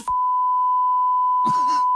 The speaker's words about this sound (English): I get out of the shower and then switch it to the handheld. Yeah. And we'll get the beep on this